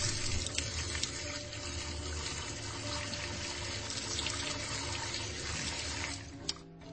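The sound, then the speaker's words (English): Running tap water pours steadily as someone washes their face at a sink, a continuous rushing flow with a brief splash or clatter near the end. “Let me just wash my face.”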